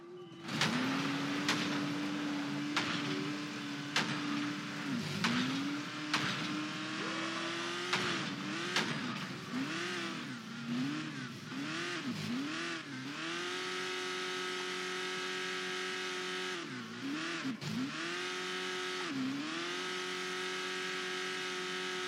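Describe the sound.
Car engine from driving in a video game, a loud continuous drone that revs up and down, with repeated dips and swells in pitch through the middle and near the end.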